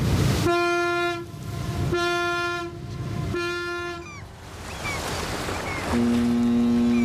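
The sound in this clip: A museum ship's horn sounds a greeting at Hamburg harbour during the harbour birthday festivities, from its berth at the Övelgönne museum harbour. Three loud, steady blasts are followed by a lower, deeper tone that holds to the end.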